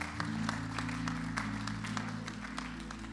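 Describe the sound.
Church audience applauding to welcome guests during a morning service: fairly quiet, scattered claps running throughout over sustained low musical tones.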